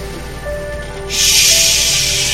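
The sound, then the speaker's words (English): A deep breath drawn in during a meditation: an airy, steady hiss that starts partway through, swells quickly and holds loud to the end, with no voice over it. “So let's take a deep breath and say Shema. This time we'll do Shema Yisrael. Inhale.”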